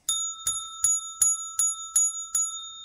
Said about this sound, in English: I ring the bell for you.